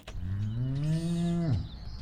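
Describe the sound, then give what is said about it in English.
A single long, loud moo from cattle at a huge cattle ranch and slaughterhouse in Central California, low and steady with a slight rise before dropping sharply at the end. “Cows. Thousands of them.”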